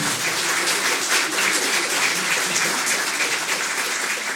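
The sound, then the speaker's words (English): Canned audience applause: a dense, steady wash of clapping that holds at an even level from start to finish, with no voices over it. “Hello, hello, hello. Thank you, fake audience. Thank you so much. You know, you may be a fake audience, but you know what I say? I say the love is real.”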